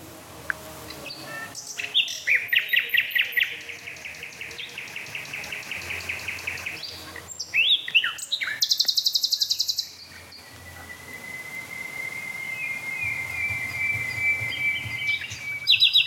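Two songbirds sing against each other, trading sobbing call motifs in bursts of rapid, repeated high notes. A steady high trill, like an insect, runs beneath the later part.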